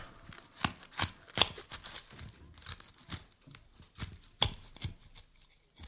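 A butcher knife hacks through something with many sharp, irregular blows. Crunching, tearing crackles fill the gaps between strikes, and no voices are heard.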